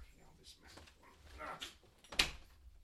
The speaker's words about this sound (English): The dogs are here, I'm afraid. And they're trying to get in.